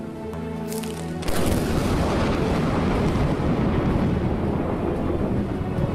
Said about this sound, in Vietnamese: Tiếng sấm nổ như tiếng bom phát ra phía sau sân vườn. Chưa bao giờ bà Hoài nghe thấy một tiếng sấm nào mà khiến cho cả ngôi nhà rung chuyển như vậy.